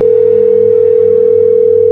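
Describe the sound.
A telephone tone while redialing someone, a loud, steady, unbroken single-pitch hum that holds for the full two seconds.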